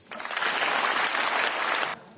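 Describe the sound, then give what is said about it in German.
Applause in the European Parliament in Strasbourg after a speech by Canada's prime minister: dense, steady clapping from many hands that swells quickly, holds for nearly two seconds, then stops abruptly. “es gab viel Applaus für Carney in dem Europäischen Parlament in Straßburg”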